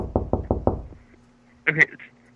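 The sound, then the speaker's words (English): Knocking on a door: four quick, loud raps in a tight rhythm, followed by quiet and a brief burst of another sound. “please don't knock on any of those doors. I won't knock on any of the doors.”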